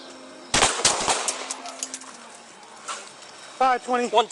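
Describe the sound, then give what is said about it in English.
Gunshots on police body-camera footage from a confrontation with a man carrying a shotgun in West Toledo: a quick cluster of loud, sharp blasts, then a voice shouting. “Three shots were fired as Pichette continued to ignore commands and walk towards officers.”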